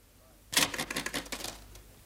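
Typing on a typewriter: a quick, uneven run of many sharp mechanical key strikes that starts abruptly after a brief quiet and tapers off near the end.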